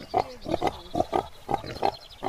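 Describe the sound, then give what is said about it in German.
American Guinea Hogs, an 18th-century pig breed, give a quick run of many short, snuffling grunts at an uneven rhythm. The grunts are moderately loud and stand alone with no talk. “Diese Schweine nennt man American Guinea Hogs. Das ist eine typische Zucht aus dem 18. Jahrhundert.”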